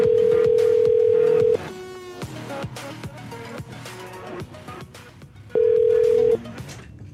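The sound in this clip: The ringback tone of an outgoing phone call while calling someone back: a long steady low tone, a gap holding other sounds, then a second, shorter tone.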